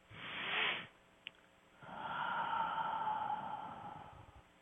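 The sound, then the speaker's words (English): Deep breathing during a guided relaxation exercise: two airy, breathy swells with no speech, a short one and then a long, steady, hushed stream of breath that slowly fades. “let's take a deep breath together and relax.”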